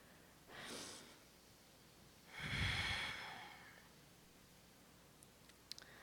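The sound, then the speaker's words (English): A deep breath is drawn, faint and heard alone: a short, airy rush of air, then a longer, fuller breath sound that slowly fades. “humor me one more time and take a deep breath.”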